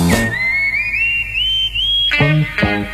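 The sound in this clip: Whistling carries a tune in a light pop song about riding a bicycle. One long, bright whistled note steps gradually upward, followed by two short tonal bursts.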